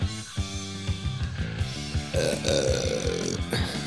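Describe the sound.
A drawn-out, rough burp rises over rhythmic instrumental music with a steady thumping beat, timed so that it seems to fit the track.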